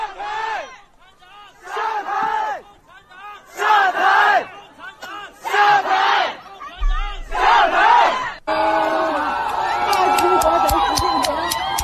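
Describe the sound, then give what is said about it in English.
Protesters at Chinese street protests chant in unison in a series of loud, rhythmic shouted phrases separated by short pauses. A continuous roar of crowd noise and shouting follows. “a little clip of the sounds of Chinese protests all across from Shanghai to Ürümqi to everywhere.”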